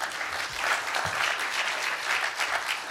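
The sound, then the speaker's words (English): Audience applause at a talk about how non-profits survive, a fairly faint but continuous patter of many hands clapping at a steady level throughout. “On the applausometer, Adlai wins.”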